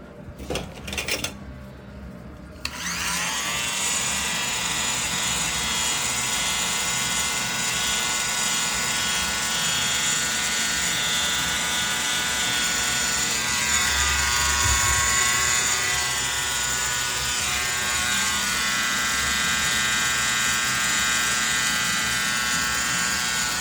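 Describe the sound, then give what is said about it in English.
An electric shaver runs as someone shaves. A few seconds of handling clicks and rustle come first, then a steady, loud buzz rich in harmonics holds evenly for the remaining twenty seconds. “Oh crap, I just realized I've missed so many spots shaving.”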